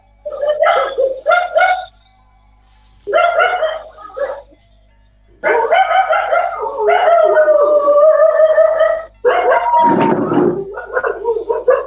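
Dogs bark, yip and howl in loud bursts separated by short pauses, the later stretch turning into a long, wavering howl-like chorus.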